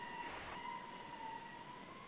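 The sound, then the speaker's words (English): An ambulance siren passes outside open windows, a faint, steady wailing tone held throughout against a low background hiss. “sorry about that, our windows are open and the ambulance went by.”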